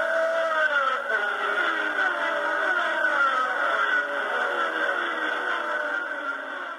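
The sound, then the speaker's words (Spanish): Racing cars tear down the main straight of a race track in Argentina, several machines bunched together, producing a sustained layered engine whine that holds fairly loud throughout. “¡Silencio en la recta principal! ¡Ya va saliendo el mixto! ¡Coche a la vista! ¡Ya vienen pegadas 6, 7 máquinas! ¡Escuchen!”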